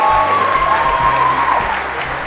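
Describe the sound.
An audience gives a short burst of loud, dense applause to welcome a speaker. The clapping holds steady and eases slightly at the end.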